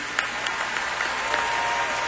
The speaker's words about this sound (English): And a big hand for all of our first responders.